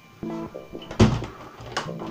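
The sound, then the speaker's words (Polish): A kitchen window being opened wide to clear smoke: soft rattles, then a solid clunk of the frame and a further scrape as it swings open. “Otwieram szeroko okno.”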